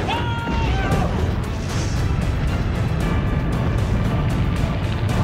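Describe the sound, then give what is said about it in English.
Rockets fire and crash into a hill, producing a dense, continuous rumbling roar laced with rapid, repeated sharp bursts that stay loud from start to finish. “He's gonna hit that hill. There goes the rockets.”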